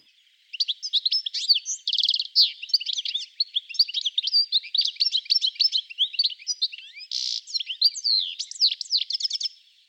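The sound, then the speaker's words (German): A European goldfinch sings a long, unbroken stream of bright, high-pitched twitters and trills. The song starts after a brief silence and carries on for about nine seconds with no other sounds. “Mit Ausnahme der Mauserzeit kannst du Stieglitze das ganze Jahr über singen hören.”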